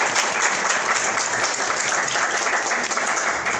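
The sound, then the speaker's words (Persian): Loud, dense applause from an audience at a talk, steady clapping that fills the whole stretch without a break. “خداییش یه دست بزنید دوست داشتم. احسن.”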